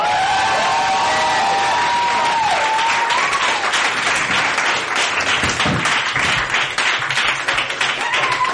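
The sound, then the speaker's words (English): Loud, sustained applause and cheering from an audience welcoming a performer to the stage at a live poetry show, with dense clapping that stays steady throughout and scattered cheers mixed in. “Make some noise for Pablo, ladies and gentlemen.”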